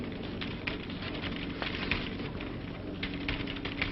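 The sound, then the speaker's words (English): Rapid, dense mechanical clattering from a machine setting its own type and printing a check copy, a continuous stream of many small clicks and taps at an even level with no other sound. “The machine sets up its own type, ready to print. It also provides us with a check copy. Here it comes.”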